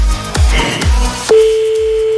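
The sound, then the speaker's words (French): A steady single-pitched telephone ringback tone on an outgoing call starts partway through and holds to the end, following a few muffled low thumps and rustling noise. “on en appelle un autre de numéro là, attention, dès que t'entends plus la sonnerie, enfin dès que t'entends plus la musique surtout, tu dis allô, d'accord?”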